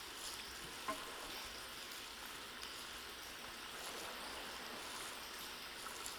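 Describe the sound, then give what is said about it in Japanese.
Homemade soap being mixed with hot spring water into lather gives a faint, fine-textured fizzing hiss, continuous and even, with a few tiny crackles as the foam builds. “こちらは、八百万温泉郷の自家製の石鹸となります。とてもきめ細かく、お肌にも優しいこちらを、うさぎ髪の湯と混ぜ合わせていき、”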